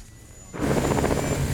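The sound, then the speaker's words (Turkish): Aircraft taking off, a loud rhythmic thumping drone that starts suddenly after a quiet moment and holds steady. “Angler gizli bir yere doğru havalandı. Tekrar ediyorum, Angler halada.”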